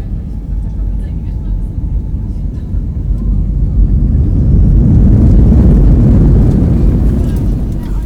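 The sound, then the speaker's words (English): Cabin roar of a passenger aircraft landing at Lviv Airport, a loud, steady low rumble that swells noticeably around the midpoint and then holds at its heavier level. “Ladies and gentlemen, welcome to Lviv Airport, where the local time is 10:45 a.m. Please remain seated with your seatbelts fastened until the aircraft will come to a complete stop.”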